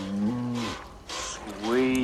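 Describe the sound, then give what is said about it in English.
A cow moos twice while being hand-milked: two drawn-out, harmonic lows split by a short pause, the second slightly higher and rising at its start. “Jo crouches on the other side of her cow. Block and squeeze, Miss Ag, like this.”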